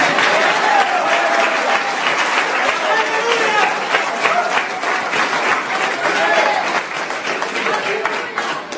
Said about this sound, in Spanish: Yo voy a aplaudir por ustedes,